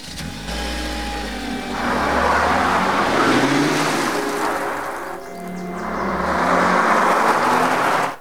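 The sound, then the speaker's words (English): A car speeds away over a gravel driveway, its engine roar blended with a dense, gritty rush of noise that swells, dips briefly, then swells loud again before cutting off abruptly. “he's running across the gravel driveway towards his car. He gets in the driver's side and speeds away.”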